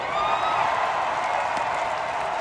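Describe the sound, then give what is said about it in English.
Baseball crowd at a Tuesday night Durham Bulls game against the Norfolk Tides in a downtown Durham stadium, heard as a steady, even crowd din with some clapping mixed in, with no single sharp peak. “That sound you're hearing is Durham Bulls taking on the Norfolk Tides in front of a Tuesday night crowd.”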